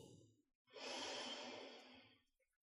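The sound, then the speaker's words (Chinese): A single deep, slow inhale during a guided breathing exercise: a soft, steady, breathy rush of air lasting nearly two seconds, alone and gently fading at the end. “让我们再来一次，深长而缓慢的吸气”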